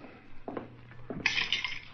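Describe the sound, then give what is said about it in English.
Glasses and utensils clinking while a drink is mixed: soft knocks and handling first, then a run of bright, ringing clinks, all fairly faint. “How about mixing us a drink? Sure.”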